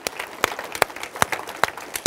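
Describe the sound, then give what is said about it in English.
A church audience applauds people praised during the service. Sharp claps repeat in a steady rhythm, with louder strokes standing out from the scattered clapping. “The 4 people who got arrested, let's give them a big hand right now. Good job. Bravo.”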